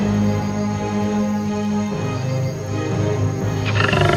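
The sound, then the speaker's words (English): A lion roars as it strides out of the woods, a deep, sustained growling roar that stays loud and steady across the whole clip. “Then there is a roar. A lion walks out of the woods majestically.”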